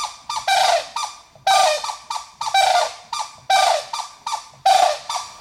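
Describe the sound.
White-naped cranes call at the nest during a changeover, trading a rapid series of loud, harsh, ringing trumpet-like calls in short overlapping bursts.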